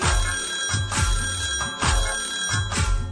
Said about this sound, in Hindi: ट्रिंग ट्रिंग ट्रिंग ट्रिंग घंटी बजी, मैया जी ने एक दिन फोन किया,